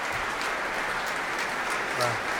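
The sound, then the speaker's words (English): Sustained, dense applause from a concert audience standing after the Dutch premiere of a Greenwood work at an orchestral matinee concert. It is a steady, even wash of clapping that holds level throughout with no break. “Ik wacht nog even tot het applaus helemaal weg is.”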